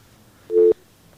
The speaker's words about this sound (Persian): متاسفانه تماس ما درست برقرار نشد